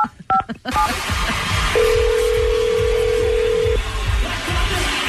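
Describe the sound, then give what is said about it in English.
Quick touch-tone beeps as a telephone is dialed to call someone back at a concert, followed by a long steady tone, all over loud, continuous crowd noise. “we lost her. Let's give her a call back.”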